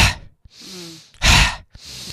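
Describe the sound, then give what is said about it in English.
Breathing in the style of a fire breath, an inhale followed by a forced exhale: a few airy breaths with one loud, rushing outward blast in the middle, alone without talk. “If you do something that's called a fire breath, which is breathing in, and then as you breathe out, it's really quite a forced out breath.”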